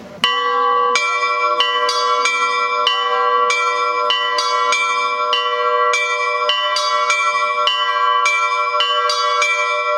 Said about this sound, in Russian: Звонарь звонит и орет, но под колокольней мы его вопли не слышим. Мы слышим только звон колоколов.